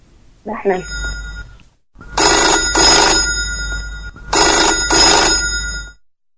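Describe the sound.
A telephone rings with an incoming call to a Hassan radio farm phone-in programme: two loud electronic ringing bursts, each made of two quick pulses, follow a brief voice at the start.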